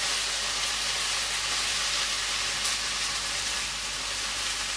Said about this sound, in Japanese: 野菜炒めってどれぐらい炒めるのが正しいの。